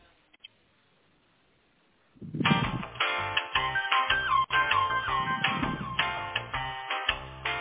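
Tinny, melodic telephone tone like hold music plays on the line while a call is transferred to technical support. It starts after about two seconds of silence and then continues steadily at a fairly even level, with a thin phone-line quality.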